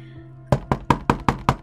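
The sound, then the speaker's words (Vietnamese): Knocking on a bedroom door: six firm, evenly spaced knocks in quick succession, each a crisp hollow rap with a short decay. “Tiếng gõ cửa phòng.”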